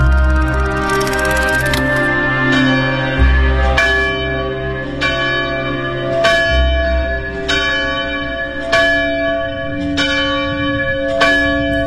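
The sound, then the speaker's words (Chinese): Morning strokes of a monastery bell on a mountain above the Jialing River ring out in many steady, evenly spaced strikes, each leaving a long, resonant metallic tone that overlaps the next. “那个时候，每天清晨都能听到从修道院里传来当当当的敲钟声，而负责敲钟的那个孩子就是严肃。”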